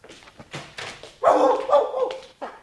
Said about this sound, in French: C'est lui ! C'est... Oh, c'est mon chien !